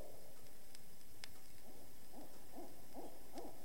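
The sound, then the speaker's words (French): Barred owl hooting in a wooded lot behind a house, a series of low, rhythmic hoots following one another at a steady pace, faint against a soft background hiss. “Une chouette rayée tout près. Puis, au loin, une réponse.”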